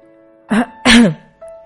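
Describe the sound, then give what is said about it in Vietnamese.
A feigned throat-clearing cough made by a voice: two short, harsh voiced bursts, the second longer and louder than the first, followed by quiet. “thế là giả vờ húng hắng ho”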